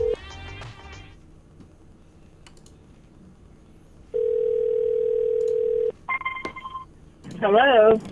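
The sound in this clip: Telephone line sounds: a steady, unbroken dial tone holds for nearly two seconds, then a short run of keypad dialing tones follows. Brief meow-like voiced sounds come before and after the tones.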